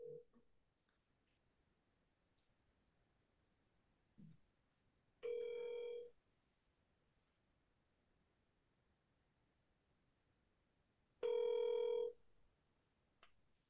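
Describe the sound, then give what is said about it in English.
A telephone ringback tone sounds while a call is placed to a friend: two steady ring bursts about a second long, separated by quiet gaps, with no voices. “Let's give Mark a call. If he doesn't answer, we're off to another good friend of ours”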